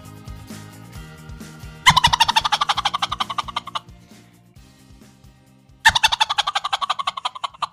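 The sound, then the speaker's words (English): A man imitating a turkey gobble, a world-champion gobbler from a gobbling contest: two loud, rapid, rattling bursts of pulsed gobbling, each lasting nearly two seconds, preceded by lower, softer throaty sounds. “a world champion in the gobbling division of the upcoming contest that's coming right here to Mobile this weekend.”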